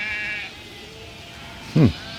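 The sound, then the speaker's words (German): A single short sheep bleat, loud and wavering, rises out of a steady low background hiss. “Die Schafe singen. Singen, der Gesang der Schafe. Singen die Schafe?”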